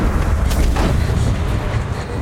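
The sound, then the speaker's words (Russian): A rifle shot in the Soviet film White Sun of the Desert, a loud booming report over a heavy, continuous low rumble that stays dense throughout. “Поднимает винтовку и стреляет.”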